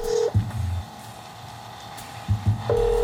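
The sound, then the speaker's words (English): Touch-tone beeps of a telephone number being dialed on a speakerphone in a garage: a steady tone at the start, a few short keypad tones in the middle, and the steady tone again at the end. “she grabbed a tape recorder and her parents' speakerphone and headed out to the garage. And then she started dialing.”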